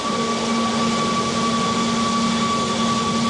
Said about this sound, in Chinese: 现在充电桩你能听到一个明显启动的一个声音。 大家刚才能听到吗？就是明显有一个这个电启动的一个声音啊。